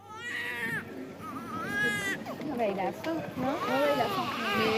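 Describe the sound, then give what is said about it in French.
A young child cries in drawn-out, high, wavering wails, with voices mixed in. “Alors, t'arrêtes de pleurer ?”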